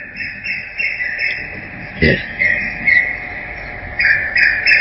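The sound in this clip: A crow caws during a Quran lesson. High, shrill calls repeat almost continuously, with a sharp, louder burst near the middle, while a voice speaks underneath.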